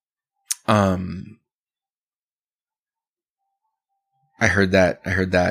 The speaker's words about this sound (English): I heard that tongue click.